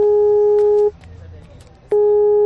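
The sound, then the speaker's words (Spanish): A telephone tone on an outgoing call: a steady, pure beep holds, cuts off for about a second, then resumes at the same pitch. “Mira cómo será que ya te estoy llamando.”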